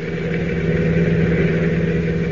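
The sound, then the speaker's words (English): Car engine running while driving, heard as a continuous low, even drone with a steady hum and no voices. “is riding in a car driven by one of the Wolf's henchmen”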